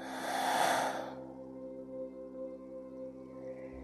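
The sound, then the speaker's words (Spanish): One deep exhale through the mouth during a guided breathing exercise, a soft breathy rush lasting about a second that fades into a calm, sustained tonal background. “Y por tu boca exhalas y sueltas.”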